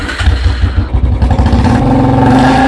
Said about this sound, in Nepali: मैले जस्तो royal Enfield bullet bike चढ्नु पर्यो नि। ए सागर, तिमी यहाँ पो? आज बुलेट चढाएर मलाई घुमाउन लाने भने हैन? ओ साच्ची हो त, आज तिम्रै पालो हो नि। Okay, let's move.